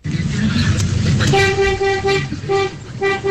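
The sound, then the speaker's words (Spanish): Deep, truck-like vehicle horn honking in sustained blasts, compared to a double-axle truck's horn. A low engine rumble comes first, then a few long, steady horn blasts follow with short breaks between them. “Este pito es más grueso. Ese sí, es como de camión, ¿no? Como de camión, a ver.”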